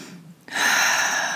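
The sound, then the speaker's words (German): A deep, deliberate breath drawn in during a guided relaxation meditation: a soft, airy hiss that begins abruptly after a quiet moment and holds steady and fairly strong to the end, with no talking. “Und atme mal ganz bewusst ein”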